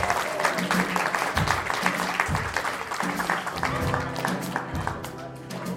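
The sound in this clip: An audience claps steadily and densely to congratulate a musician on releasing his third album, the applause sustained throughout with voices over it.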